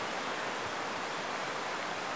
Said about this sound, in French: Et non, ce n'est pas la pluie, c'est le ruisseau qui coule.